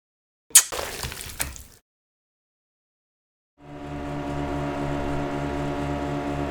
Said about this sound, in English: What all these things go fast? Thanks, it was my final project at the Citadel. An external motor for fast, small vessel travel.